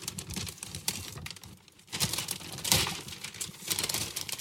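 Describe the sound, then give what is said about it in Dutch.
Paper crinkles and rustles as a large gift is unwrapped, with many irregular, soft crackling bursts and a brief lull partway through. “Dit is een heel groot cadeau, dames en heren. Oh, master. Kan ik hem zo uitpakken?”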